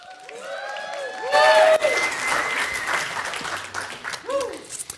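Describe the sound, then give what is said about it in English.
Church audience cheering, hollering and clapping as the pastor is welcomed: a loud burst of applause with high whoops rises after a second and stays dense, then eases into scattered claps and shouts. “We don't need all those hoops and hollers. Settle down. Jeez. Got my ego all inflated.”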